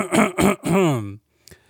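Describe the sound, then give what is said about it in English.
A man clears his throat before reading aloud, with three gruff voiced rasps, the last drawn out and falling in pitch, followed by a brief faint click after a pause. “I'm just going to clear my throat here.”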